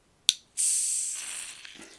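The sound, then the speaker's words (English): A can of Piston Head Full Amber Lager, a 6% beer, cracks open with a single sharp snap. After a short pause comes a loud, sustained fizzing hiss that slowly fades away. “So this is a Piston Head Full Amber Lager. A quality Piston Head product brewed with selected Citra hops. Dry hopped with Citra and Cascade. Pray silence for the crack.”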